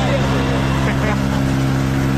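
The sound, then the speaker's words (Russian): Boat motor drone as soldiers cross the Dnieper river by boat, a loud, steady, even engine hum with no breaks. “Бойцы показали видео. На нем они пересекают Днепр на лодке. Вот как это выглядит.”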